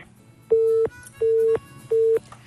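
Telephone busy signal on a failed call: three evenly spaced bursts of a steady, mid-pitched tone, each lasting about a third of a second and separated by short silences, with no talking.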